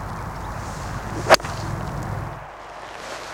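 A hollow-headed 6 iron golf club strikes a ball with one sharp, higher-pitched crack that stands alone over a faint, steady background hum.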